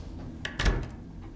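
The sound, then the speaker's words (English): An apartment's front door opens and keys are put down, heard as a few short clunks and clicks with one heavier thud in the middle, fairly loud and without talk. “walks in the front door. He puts down his keys.”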